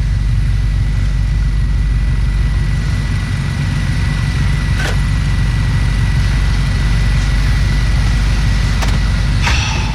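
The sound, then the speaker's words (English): A car drives off with a loud, constant low engine rumble and a few faint, brief clicks, no voices over it. “Get in the car. Let's go.”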